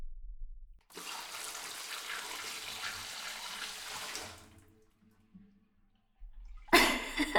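Cold tap water pours over a person's head in an old bath, a steady rushing splash lasting about three seconds before tapering off, followed by a brief burst of other sound at the end.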